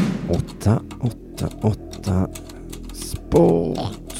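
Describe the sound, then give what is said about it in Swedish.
Keys being typed on the polished keyboard of an ancient machine: a string of separate, evenly spaced clacks, ending in a longer, louder burst. “Med darrande fingrar slog Simonius Chypernicus in den avgörande formeln 888sport.se på det välputsade tangentbordet.”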